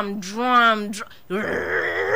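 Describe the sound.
A voice imitates a person snoring like a generator. A drawn-out groaning vocal drone is followed, after a short break, by a rougher, buzzier continuous rasp.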